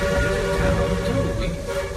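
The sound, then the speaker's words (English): A runaway mine train rumbles along a railroad, a low continuous clatter under a steady, sustained whistle tone that holds at one pitch throughout. “eyes peeled for the runaway mine trains of the Thunder Mountain Railroad. Runaway trains.”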